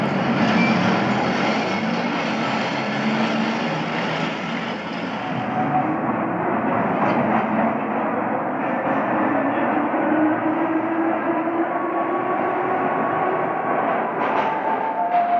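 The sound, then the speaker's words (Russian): A tram pulling away: a loud, continuous rolling rumble with a broad rushing hiss that stays steady throughout. “Двери закрываются. Трамвай уезжает.”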